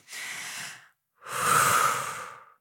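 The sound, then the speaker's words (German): A deep breath in through the body, then a strong, longer and louder exhale, taken during a guided relaxation exercise with eyes closed; two separate airy rushes with a short silence between them. “Tief ein und dann ganz feste ausatmen.”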